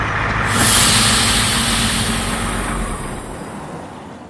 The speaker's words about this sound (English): The Dodgers tour bus pulls up outside the hotel.